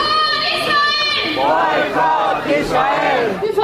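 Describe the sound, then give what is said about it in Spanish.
A protest crowd chants "Free Palestine" at a pro-Palestinian demonstration held before the first semifinal. The chorus of voices is loud and repeats its rhythmic phrase several times. “Protestas pro-palestinas, ¿no? Free Palestine, escuchábamos.”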